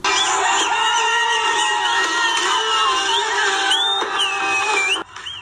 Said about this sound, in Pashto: د استرالیا په وړاندې د افغانستان د کرکټ د ملي ټیم پرونی بریا په افغانستان او بهر کې ګڼو افغانانو په شور او زوګ لمانځلې ده